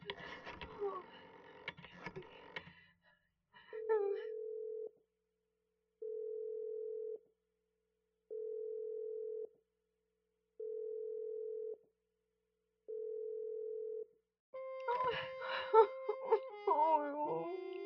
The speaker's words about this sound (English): try that Murray Hill 70093 number for me just once more, please. You may dial that number direct.